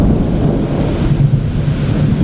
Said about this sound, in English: We'll just see these kind of incredible downpours in this city.